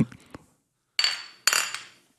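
Beer glasses clink together in a toast: two sharp, bright chinks about half a second apart, each ringing briefly before fading, after a few soft knocks at the start.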